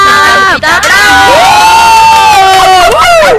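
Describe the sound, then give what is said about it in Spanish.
Loud, continuous audience cheering with shrill whoops and high shouts from a crowd, swelling and dipping for a few seconds at the close of a show. “Un aplauso de verdad. Muy grande.”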